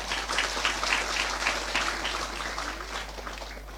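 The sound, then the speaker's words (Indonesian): An audience applauds to welcome an Islamic religious teacher as a guest, a steady, dense patter of clapping that lasts throughout over a constant low hum. “Aplaus dulu dong buat Ustaz Felix.”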